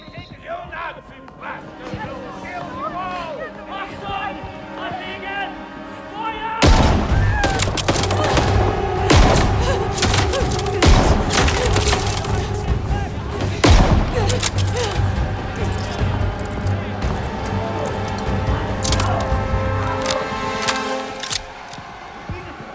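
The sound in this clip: Sniper rifle gunfire in a video game: a quieter opening gives way to many sharp shots and loud bursts of fire, with a voice talking over the action.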